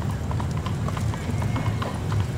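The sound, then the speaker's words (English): Horse hooves clip-clop steadily as a horse slowly pulls a carriage, with many evenly spaced hoofbeats at a constant loudness and muffled voices in the background. “This carriage is pretty slow.”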